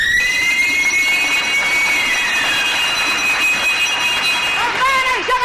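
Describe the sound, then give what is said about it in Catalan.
A lottery ball wheel spins with a steady high mechanical whine whose pitch slowly sinks, and a brief rattle near the end marks a ball dropping out. “Oh, atenció, roda de la bola. I cau la número 169.”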